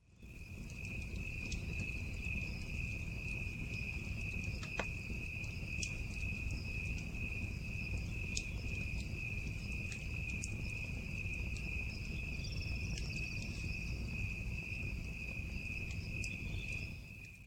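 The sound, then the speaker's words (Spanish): Crickets chirping at night beside a lit campfire: a steady, high, shimmering trill that runs unbroken through the whole stretch, with no voices. “Se escuchan los grillos primero, porque hay un fogón encendido y es de noche”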